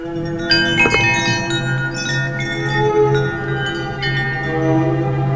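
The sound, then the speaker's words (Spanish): A doorbell chime rings at a door that stands ajar: two struck tones in quick succession, their bright partials lingering and slowly fading over a steady low drone. “Para ver qué había sucedido, llamó al timbre.”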